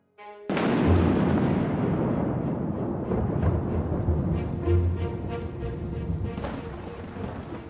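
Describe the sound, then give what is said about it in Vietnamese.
A night thunderstorm with strong wind and heavy rain beating on leaf roofs. A sudden loud thunder crack gives way to a long rolling rumble and a steady, dense hiss of pouring rain. “Tiếng sấm đánh ì đùng, những tia chớp chói sáng rạch ngang dọc trên bầu trời đêm. Mưa to gió lớn, nước từ trên trời rơi xuống đập vào những mái lá nghe sàn sạt.”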